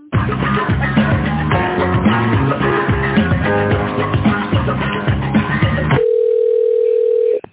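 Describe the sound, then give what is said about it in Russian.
Telephone hold music during a call transfer, which cuts off abruptly into a steady single-pitched line tone that lasts about a second and a half. “Сейчас, одну минуточку, я вас сейчас соединю с тендерным отделом.”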